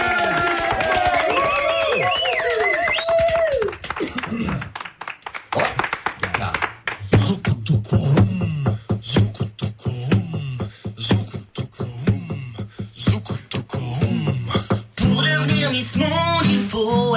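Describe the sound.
Studio audience applause for a band: a brief voice, then dense, loud clapping that continues with voices over it before music returns near the end.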